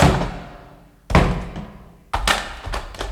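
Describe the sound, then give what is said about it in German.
An axe breaks open a heavy, locked cellar door: three loud wooden thuds, each with a booming decay, the last followed by a few smaller knocks, with no voices. “nahm ein Beil und sprengte die Tür auf.”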